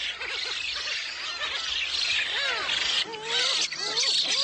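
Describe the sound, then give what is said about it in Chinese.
Black-faced spoonbill chicks call noisily on an island near Yeonpyeong Island in May, a dense, overlapping chorus of rising and falling squealing cries over a constant high hiss. “新生雏鸟们吵得不可开交。”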